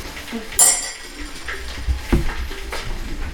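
Dishes and cutlery clink and clatter as coffee is prepared, with a few sharp chinks spaced irregularly over a quiet, low background.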